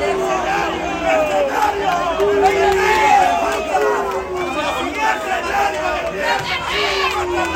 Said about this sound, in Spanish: Eso que escuchábamos era cómo rugía la gente en la Plaza México, un tanto molesta, porque definitivamente no le salieron para nada las cosas al torero peruano